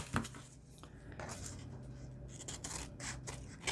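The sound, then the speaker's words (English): Scissors trim glued paper scraps during paper craft work on a pocket, giving a few faint, crisp snips and rustles over a low steady hum. “Now I'm going to flip it over and trim these off.”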